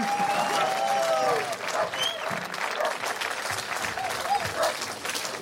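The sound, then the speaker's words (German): An audience breaks into enthusiastic applause, a dense wash of many hands clapping, loudest at the start and then continuing slightly softer but steady to the end. “Und ich bitte um einen riesengroßen Applaus für Dietmar Wischmeier.”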